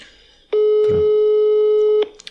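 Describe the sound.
An unanswered phone call rings out as one steady, sustained electronic tone lasting about a second and a half, then cuts off.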